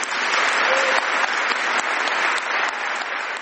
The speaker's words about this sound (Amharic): ማርጋሬት ቻን ንግግራቸውን ሲያበቁ ከተቸራቸው ከፍተኛ ጭብጨባ እንደምንረዳው በሺዎች የሚቆጠሩ ተሰብሳቢዎች ለ10 ዓመታት የድርጅቱ መሪነታቸው እጅግ በጣም ጥሩ የሚል ማርክ እንደሰጡ ነው የሚያሳየው።